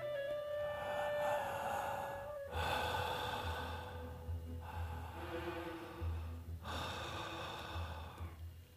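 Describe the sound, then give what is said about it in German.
Deep, full breathing in a guided breathing exercise: a few long, airy inhales and exhales in a slow, steady rhythm, quiet and alone. “Immer beim Atem bleiben. Voll und tief atmen, aber ein bisschen dynamischer.”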